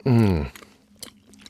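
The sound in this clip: A person chews a bite of pear tart with a caramelised tarte-tatin-style top, right after a brief spoken sound. Soft, moist chewing follows, with a few small crunchy bites spaced apart.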